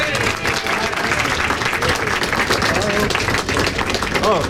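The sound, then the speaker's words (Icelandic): Audience applause in Liverpool as a host is introduced to a tour group: loud, sustained clapping with crowd voices and cheers mixed through it, staying dense and continuous to the end. “gefið gott klapp, Dave Jones”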